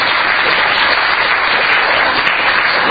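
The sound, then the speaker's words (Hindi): Dense, steady applause from an audience at a religious gathering where people have been fasting for eight days. It sounds somewhat subdued, with a continuous even wash of many hands and no single claps standing out. “देखो तालियों से ही समझ में आया, पर तालियां थोड़ी धीमी बजी”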